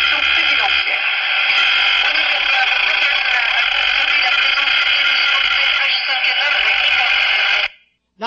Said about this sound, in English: They've actually been able to hear, quote, legal BPL just above the noise floor about a mile from the source. So here's the one at the injector.